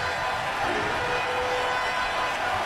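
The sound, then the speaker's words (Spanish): A standing baseball crowd roars during a postseason game at Truist Park as the count reaches two strikes, making a steady, dense wash of cheering and noise that holds at an even level throughout. “Tiene para trabajarlo el público de pie. Escuchen al público aquí en el Truist Park.”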